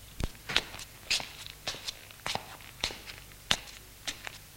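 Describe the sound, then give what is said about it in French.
Soft footsteps of a person pacing back and forth in a room, many light steps in a fairly steady rhythm, faint and with no talk. “Il marche de long en large dans la pièce.”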